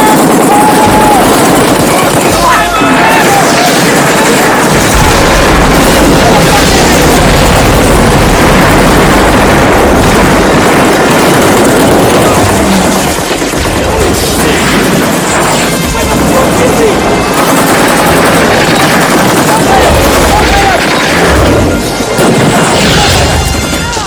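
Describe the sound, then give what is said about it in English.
Gunfire and explosions from an armed kill team's attack form a loud, dense, unbroken barrage of crashing blasts and rapid bangs that continues without pause. “You're listening now to one of the kill teams in action, sent to Teletubbies land”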